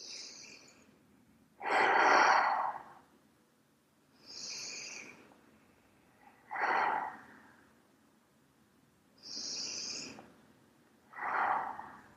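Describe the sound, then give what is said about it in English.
Slow, deep human breaths during a relaxation exercise. Three heavy, rushing breaths arrive several seconds apart, with softer, hissy breaths between them. No one speaks. “And just take three breaths.”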